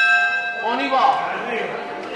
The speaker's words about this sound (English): As the bell ringing marks the start of the next tour of the old city's Rum Museum